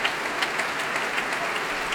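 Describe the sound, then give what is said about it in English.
An orchestra applauds after a performance, a soft, even wash of many hands clapping continuously with no voices. “All the orchestra applauding, and François-Xavier Roth trying to encourage them to their feet.”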